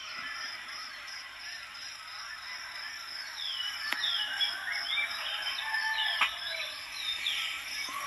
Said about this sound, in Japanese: これは鳥の音ですか。 そうですね、鳥と虫と、 うん、 あと一生懸命一生懸命やってる鶏もいますけど